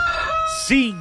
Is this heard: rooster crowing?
yes